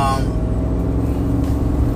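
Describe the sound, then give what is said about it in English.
Car traffic moving around a roundabout at lunchtime, heard as a steady, dense rumble of engines and tyres that carries on without a break. “as I go through it and make my way through it, all these cars driving crazy.”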